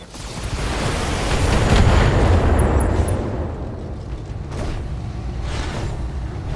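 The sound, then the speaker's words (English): Weapons fire and explosions from a jumping Vindicator mech in a video game form a loud, dense, continuous roar of blasts. It is heaviest at the start, then eases to a steady rumble with no voices. “I'm glad this Vindicator can also jump. Fire everything!”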